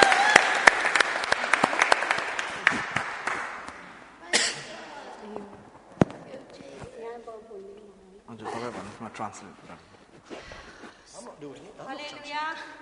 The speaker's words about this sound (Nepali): उसलाई ताली बजाएर स्वागत गर्नेछ